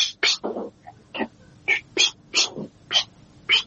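A restless cat indoors lets out many short, sharp, high-pitched cries in irregular bursts, separated by brief quiet gaps.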